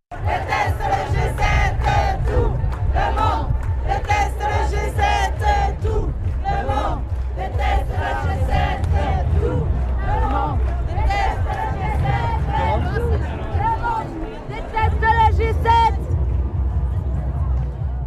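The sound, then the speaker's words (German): Crowd of protesters at an anti-G7 demonstration in Geneva, chanting and shouting loudly and without pause, with many overlapping voices and rhythmic vocal bursts over a constant low din. “Einen Rückblick zur Anti-G7-Demo hören. Diese Demo war in Genf”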